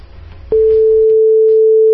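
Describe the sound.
Telephone dial tone heard while a call is being placed: a brief muffled rustle gives way to a loud, steady, single-pitched hum that holds unbroken to the end.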